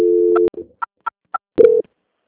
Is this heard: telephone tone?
yes

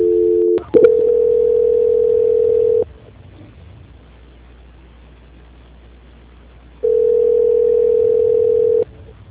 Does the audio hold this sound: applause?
no

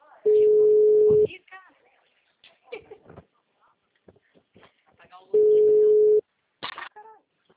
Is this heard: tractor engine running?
no

